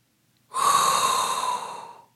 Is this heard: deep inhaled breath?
yes

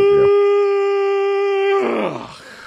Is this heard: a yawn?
yes

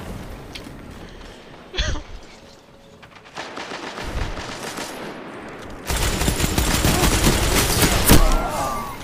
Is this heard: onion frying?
no

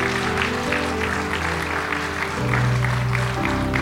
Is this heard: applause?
yes

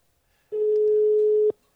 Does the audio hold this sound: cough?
no

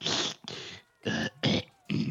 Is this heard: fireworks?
no

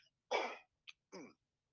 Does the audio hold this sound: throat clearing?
yes

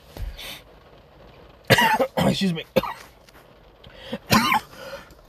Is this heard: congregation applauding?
no

